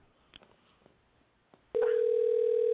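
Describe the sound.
Ringback tone of an outgoing telephone call: after a quiet stretch with a few faint clicks, a steady, even electronic tone starts abruptly and holds loud and unbroken to the end.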